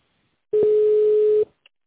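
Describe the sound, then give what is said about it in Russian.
A telephone ringback tone plays while a call is being transferred: a single steady, mid-pitched tone lasting about a second, heard alone. “Вставайте на линии, пожалуйста, привожу ваш звонок.”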